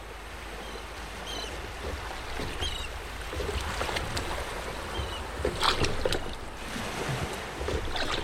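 Oars row a boat on the open sea, with steady watery sloshing and a few brighter splashes over a continuous rushing wash of water and wind.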